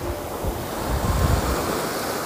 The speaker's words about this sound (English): in Asia, on the Gulf of Thailand, as my feet sink deeper into the shell-ridden sand.